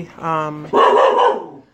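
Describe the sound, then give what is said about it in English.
A dog gives one short, loud bark that opens with a brief whiny, tonal yelp and then breaks into a harsh, rough burst before cutting off. “That was my dog that was barking. You need to be quiet.”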